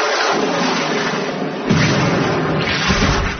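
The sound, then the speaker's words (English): A comedy-sketch explosion blows someone to smithereens. A dense, roaring blast surges into a deeper boom midway and keeps rumbling loudly to the end. “He's gone! Yes, he's gone! Blown to smithereens, blasted out of existence, yes.”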